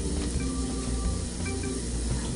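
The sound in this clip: Food broken into small pieces sizzles as it browns in a pan. A faint, steady hiss runs throughout with no break.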